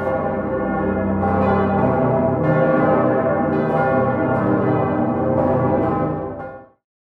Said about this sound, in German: das haben also wirklich schon Generationen von Menschen gehört, dieses Geläute.